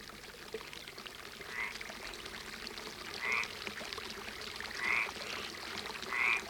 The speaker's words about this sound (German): In den Feldern unterhalb des Parks, dessen hohe alte Bäume das Schloss umgeben, ein Wasserbecken und Frösche, die aber nur einen kurzen Dialog halten.